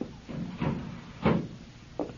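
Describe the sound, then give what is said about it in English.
Sliding glass doors are opened with a few soft thuds and rattling scrapes spread over about two seconds, the loudest near the middle, and a short knock at the end, with no voices. “Let me get these sliding glass doors.”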